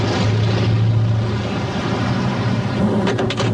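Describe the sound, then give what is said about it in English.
A car parks on a busy street amid a steady, loud low rumble of engine and traffic noise that continues unbroken throughout. “Later, Barbara parks on a busy street.”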